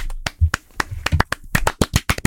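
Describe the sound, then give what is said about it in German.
Knuckles knocking on a table in place of applause: many sharp, dry raps, spaced unevenly at first and then coming thicker and faster toward the end, with no talking. “Habe ich jetzt alleine applaudiert oder was? Ich habe euch Tisch geklopft.”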